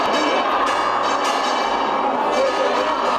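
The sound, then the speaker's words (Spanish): Church bells ring out at a parish in Urda, Spain, welcoming a religious procession of a Christ figure: continuous overlapping metallic tones over a dense, steady background din. “Las campanas empiezan a sonar”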